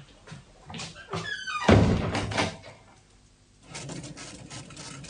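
A door being shut and locked behind someone: squeaky creaking leads into a single heavy, booming thunk, followed by fainter rattling and shuffling.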